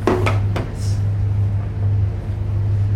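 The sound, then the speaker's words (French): Deep, continuous engine rumble of a 100-metre container ship leaving the quay after the last container is loaded, a steady low drone with a few sharp knocks near the start and no talking. “Ça y est, le dernier conteneur a été mis, donc on va pouvoir appareiller, donc effectuer le départ du bateau.”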